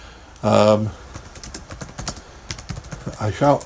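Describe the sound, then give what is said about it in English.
Rapid, irregular clicking of a computer keyboard as someone types a reply in an online chat room. Brief vocal sounds come at the start and the end. “I shall type back.”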